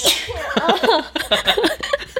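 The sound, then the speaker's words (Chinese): A single sneeze bursts out at the start, bright and sharp, followed by a couple of seconds of short, broken vocal sounds. “可能喷嚏”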